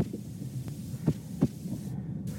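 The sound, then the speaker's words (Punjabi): A stressed bus driver's heartbeat after being yelled at, insulted and threatened comes through as a few soft, low thumps at an uneven pace over a steady faint hum. “ਇਹ bus driver ਦੇ ਦਿਲ ਦੀ ਧੜਕਣ ਦੀ ਆਵਾਜ਼ ਹੈ ਉਸ ਉੱਪਰ ਚੀਕੇ ਜਾਣ ਤੋਂ ਬਾਅਦ ਬੇਇੱਜ਼ਤੀ ਕੀਤੀ ਗਈ”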